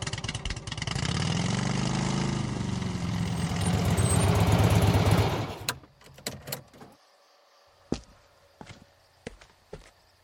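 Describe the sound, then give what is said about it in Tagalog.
A large motorcycle engine runs with a steady, loud, throbbing rumble for about five seconds, then cuts out, leaving a few sharp clicks and knocks in near silence. “Peter, kailan ka pa natutong magmotor? Sa'yo ba anak yung motor na yan? Kaya mo bang imaneho yung ganyang kalaking motor?”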